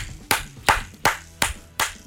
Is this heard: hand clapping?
yes